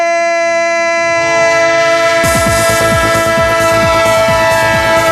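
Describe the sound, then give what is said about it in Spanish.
A sports radio jingle built on a train effect: a loud, sustained train horn opens, then the rhythmic clatter of rolling railcar wheels joins in beneath it, with no talk. “el tren de Radio Estadio, el tren de Onda Cero, el tren del deporte en vivo.”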